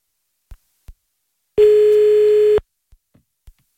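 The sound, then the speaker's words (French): A telephone line tone sounds during a callback: one loud, steady electronic tone holding for about a second, with a few faint, soft clicks before and after it. “Hein, on va rappeler, à Charleroi. Là. Allez, attends, on va rappeler.”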